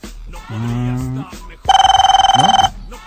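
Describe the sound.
A telephone rings on an outgoing call: a voice speaks briefly, then after a pause comes a loud, rapidly pulsing, trilling ring lasting about a second before stopping.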